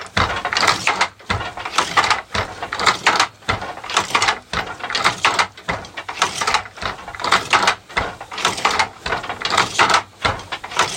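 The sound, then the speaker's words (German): A wooden hand loom being worked with a small oval wooden shuttle carrying thread, making a steady rhythm of many loud clattering, ratcheting knocks about once a second. “spannen wir die Fäden von vorne nach hinten in einen Webstuhl und fangen an zu weben. Das machen wir mit einem Schiffchen, in dem extra ein Faden eingespannt ist, und bewegen das Schiffchen von links nach rechts.”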